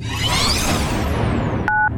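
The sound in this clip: Touch-tone beeps of a telephone number being dialed come near the end as a couple of short dual-tone keypresses, after a loud, dense wash of sound.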